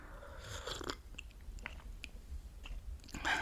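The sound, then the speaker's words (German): Faint slurping of a sip of coffee: a few soft, noisy mouth sounds with brief clicks, spread over a few seconds. “Apropos, weil ich gerade vom Kaffee gesprochen habe, ich nehme mal kurz hier einen Schluck.”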